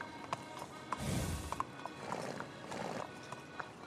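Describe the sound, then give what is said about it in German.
Faint, distant clip-clop of a horse's hooves as a carriage departs, irregular soft knocks spread over a steady noisy background. “Von weitem ist Pferdegetrappel zu hören. Die letzte Kutsche fährt davon.”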